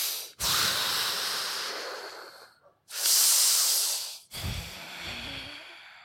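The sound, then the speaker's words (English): Loud, deep breathing imitated by a human voice, as of someone standing with folded arms trying to calm anger: three long, hissing breaths of a second or more each, with brief gaps between and no talk. “Taking deep breaths to calm down your anger doesn't mean you stand there with folded arms going,”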